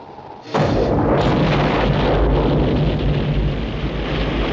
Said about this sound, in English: 8, 7, 6, 5, 4, 3, 2, 1. Bombs away.